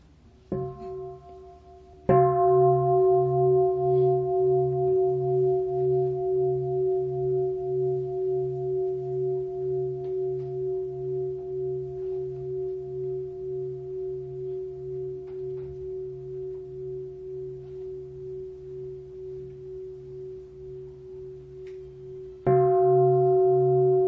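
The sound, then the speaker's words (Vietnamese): A meditation bell is struck before sitting meditation at a Buddhist dharma talk: a soft tap, then two full strikes about twenty seconds apart, each leaving a long, steady, gently pulsing ring that slowly fades. “là tôi thỉnh chuông, chúng ta sẽ tọa thiền một chút.”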